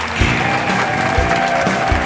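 Recorded applause sound effect: a dense, steady wash of clapping from a crowd that holds at an even loudness for about two seconds.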